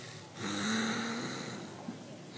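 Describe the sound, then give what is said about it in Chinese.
A voice imitates snoring: one drawn-out, low buzzing snore over breathy noise, then a quieter breathy stretch with a faint click near the end. “打呼噜。”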